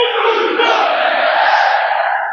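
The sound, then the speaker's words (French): A football crowd roars for Stade Malherbe Caen during an evening match at the d'Ornano stadium, a sustained wall of massed voices and shouts that stays loud and even throughout. “Vous entendez le public de Dornano. Le Malherbe Normandie Cup qui pousse le Stade Malherbe de Caen jusqu'au bout ce soir.”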